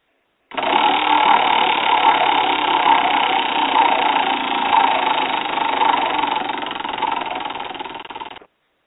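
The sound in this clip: Prize wheel spinning sound effect, a dense continuous whirring buzz that starts abruptly, holds steady and loud for about eight seconds, then tapers slightly and stops sharply.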